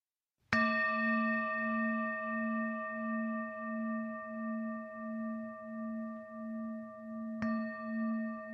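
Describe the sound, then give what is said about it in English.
A bell rings, struck twice: a clear, sustained tone with bright overtones and a slow, wavering pulse that hangs for about seven seconds before a second strike near the end renews it. “as you hear the sound of the bell, letting it permeate inside of you”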